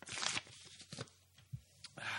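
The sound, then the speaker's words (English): A paper envelope is torn open: a quick ripping burst, then a few small crinkles and taps, and a second tear at the end, all quite faint. “let me just get the envelope here and crack her open.”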